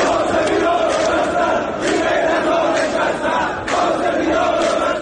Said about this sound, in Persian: در دومین روز اعتراض‌ها به نوسان نرخ ارز و بی‌ثباتی در بازار، ویدیوهای منتشر شده در شبکه‌های اجتماعی از گسترده‌تر شدن اعتراضات و شنیده شدن شعارهای ضد حکومتی